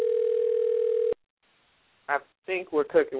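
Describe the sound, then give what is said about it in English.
A telephone dial tone from an accidental call: a steady, even tone lasts about a second and cuts off abruptly, then after a short silence a person begins talking. “I think I just made a phone call.”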